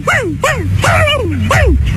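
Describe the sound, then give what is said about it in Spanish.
A frightened small dog gives several high whimpering yelps in quick succession, each sliding down in pitch, with a low hum underneath. “No, tiene miedo. El pobre perro se asustó.”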